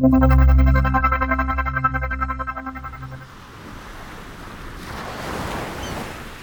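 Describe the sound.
Open-sea waves surging in a broad rushing wash that swells toward the end, preceded by a pulsing low musical drone that fades out.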